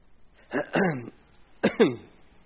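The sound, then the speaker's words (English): Coughing and choking from a person who took a drink while talking: two bursts of harsh, wet coughs separated by a short pause, fairly loud against a quiet background. “Excuse me while I choke.”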